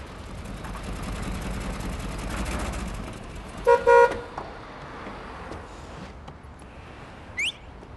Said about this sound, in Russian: подъехал к мастерской на маленькой желтой машине